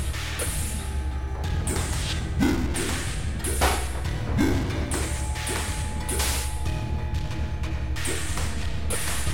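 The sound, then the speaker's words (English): Laser shots fired in a video game: many sharp zapping bursts with thuds and whooshes in irregular succession over a steady game background. “Shoot you with the laser.”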